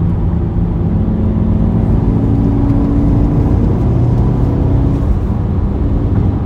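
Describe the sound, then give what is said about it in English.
A car pulls out and drives straight ahead, its engine giving a steady, loud mid-range drone over continuous low road rumble that holds even for the whole stretch without clear revving. “So I'm gonna pull out straight, hands off, brake, and it's straight.”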